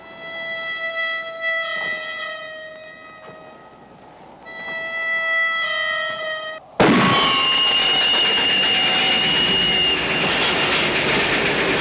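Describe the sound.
A train roars in with a sudden loud, steady rumble and a high whistle-like tone, cutting in after several seconds of quieter held musical notes.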